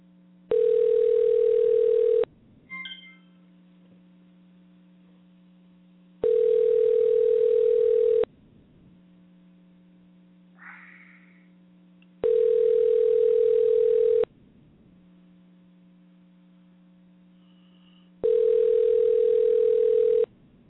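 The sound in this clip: A telephone line rings while a number is being called, giving four steady ringback tones of about two seconds each at even intervals, with a faint low hum between them and no voices.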